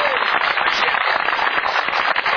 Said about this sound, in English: I think them guys deserve a round of applause because they did a heck of a job